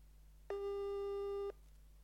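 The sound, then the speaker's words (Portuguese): Outgoing telephone call ringing tone: one steady, mid-pitched electronic beep lasting about a second, heard alone over a faint low hum. “Está a chamar, está a chamar.”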